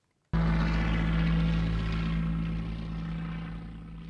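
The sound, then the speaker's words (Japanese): A light propeller aircraft flies past: a loud, steady buzzing drone with a strong low hum cuts in abruptly after a short silence, holds steady, then slowly fades toward the end. “最後にねあのプルルルルルっていうね、はい、軽飛行機が飛んでいく音もしていましたね。”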